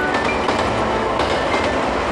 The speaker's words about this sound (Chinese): 列车驶离通辽站，窗外的每一寸土地都留下了时代变迁的烙印。